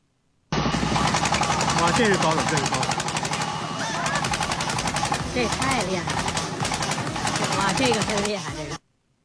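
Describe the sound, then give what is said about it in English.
Loud, steady mechanical rattling drone from a vehicle spraying anti-COVID disinfectant as it drives down a street. It starts abruptly, runs unbroken for about eight seconds and then cuts off. “Is that something out of Mad Max? It looks like it's some crazy dystopian vehicle. Actually, if I'm reading that right, that was some sort of anti-COVID spray that they were just driving”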